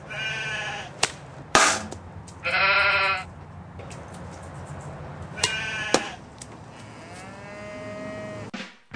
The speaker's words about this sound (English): Two Guys and a Robot is filmed in front of a flock of sheep invading a cow pasture